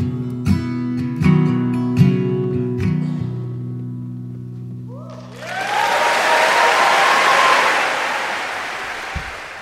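Applause from an audience starts at about five seconds, after a stretch of sustained tonal, music-like sound. It swells into a dense, steady roar of clapping that holds at a fairly loud level to the end.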